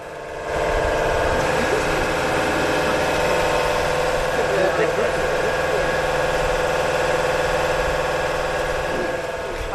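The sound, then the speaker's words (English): A fully loaded electric B-double log truck in Australia idles with a steady, quiet, continuous hum and a faint whine that holds even throughout. “That is the sound of an idling B-double truck, fully loaded with logs. And you're thinking, that sounds a bit quiet for a B-double. Well, it's not just any truck. Australia's first electric truck.”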